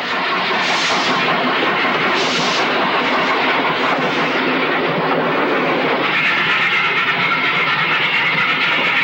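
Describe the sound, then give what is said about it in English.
A steam train pulls out of a station: a loud, steady roar of hissing steam and rumbling rolling stock that holds continuously without a break. “Billowing steam, the train chugs out of the station as the wounded man climbs onto the boxcar's roof.”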